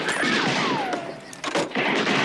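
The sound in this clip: Gunfire from an upstairs window comes as loud, dense, noisy bursts, with a whistling tone sliding down in pitch through the first half.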